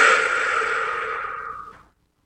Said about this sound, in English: So let's dive into this. Take a nice deep breath.